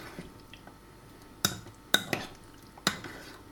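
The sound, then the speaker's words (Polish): A spoon stirs sour cream into a cucumber salad in a high-sided bowl, giving a few sharp, bright clinks of metal on the bowl over a faint, soft background. “Delikatnie łyżką całość mieszamy ze sobą.”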